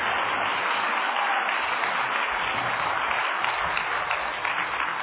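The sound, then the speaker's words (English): An afternoon audience in Kela Mesa applauds to welcome an a cappella group from Uganda. Thick, continuous clapping keeps a fairly even level throughout and sounds somewhat muffled. “will you, this afternoon here in Kela Mesa, put your hands together and welcome the a cappella from Uganda.”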